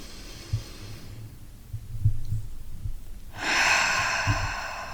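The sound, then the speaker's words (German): A deep breath: a soft, airy rush of breathing, faint and alone, that swells in the second half with a few low soft thumps. “und dann nimm jetzt mal einen dankbaren, tiefen, liebevollen Atemzug.”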